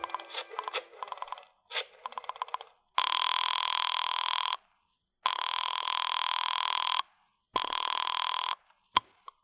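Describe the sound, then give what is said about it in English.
A telephone rings after a number is dialed: a rapid series of short tones, then three long, steady ringing tones separated by pauses, ending with a sharp click. “I dug through the telephone book and I found Dr. Matson B. Forsyth's number and I dialed it.”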